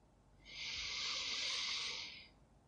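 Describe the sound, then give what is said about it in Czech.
A single slow breath in, heard as a soft, airy hiss that rises over about half a second, holds steady, then fades away, faint and alone. “Uvědomte si ten zvuk, nádech”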